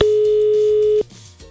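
Ringing tone of an outgoing telephone call: a single steady, mid-pitched electronic tone lasting about a second, then it stops, leaving a faint, quiet line hiss.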